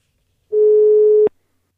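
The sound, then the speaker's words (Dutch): A single steady telephone dialing tone, mid-pitched and unwavering, sounds alone for under a second and cuts off abruptly with a short click, with silence before and after. “Dus we gaan bellen met Tim Krabbe.”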